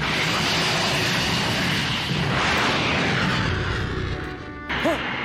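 Aircraft engine roar as the craft descends to land: a loud, dense, steady rushing drone that holds evenly for several seconds, then drops away abruptly shortly before the end.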